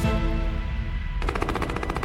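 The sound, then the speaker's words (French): A hail of automatic gunfire strikes a car that has braked onto a roadside bank during an ambush. A dense, rapid rattle of shots builds over a steady low rumble and becomes sharper and more distinct in the second half. “Une pluie de balles s'abat sur la voiture.”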